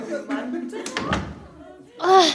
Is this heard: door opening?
yes